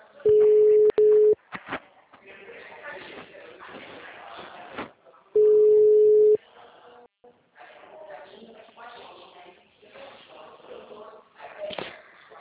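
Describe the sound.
Ringing tone heard while a telephone call is being placed: two steady, loud one-second tones about four seconds apart, with muffled talk between and after them.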